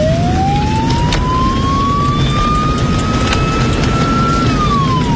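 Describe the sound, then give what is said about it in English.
A siren switched on in a car stuck in a night-time traffic jam: a single loud wail that climbs slowly, levels off, then drops, over a steady rumbling engine. “It's time to use the siren, I think.”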